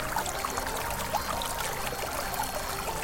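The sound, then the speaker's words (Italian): A rushing torrent tumbling over rocks into a noisy waterfall gives a steady, unbroken hiss of flowing water, fairly faint and without pauses. “Ma quello era il rumore dell'acqua.”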